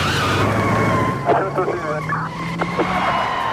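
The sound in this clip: Car accelerating hard during a police pursuit, with tires squealing over a roaring engine and sustained tonal whines carrying through several seconds at high volume.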